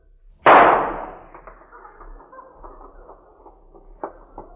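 A single pistol shot fired to put down an injured stallion: one loud, sharp crack that decays over about half a second, followed by faint scattered clicks and rustles.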